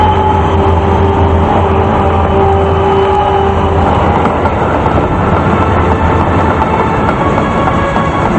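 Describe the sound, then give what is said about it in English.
Steady, loud rumble of a moving train running beside another train, with a continuous low hum and a held tone in the first half. No clear wheel clicks or voices stand out. “One by one, they climb onto the roof as the second train pulls alongside the first.”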